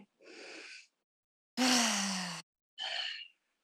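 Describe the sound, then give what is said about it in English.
Deep breathing during a guided meditation: three breath sounds separated by silence. A soft airy draw comes first, then a louder voiced sigh with falling pitch, then a shorter, lighter breath. “Let's take a big breath in.”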